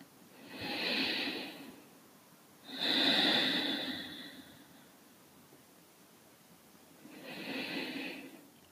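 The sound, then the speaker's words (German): Slow, soft breathing during a meditation: three gentle, airy breaths rise and fade in an unhurried rhythm over a faint hiss, with long quiet gaps between them and no speech. “Atme weiter. Lege deinen ganzen Fokus auf deinen Atem, auf die Bewegungen deines Atems.”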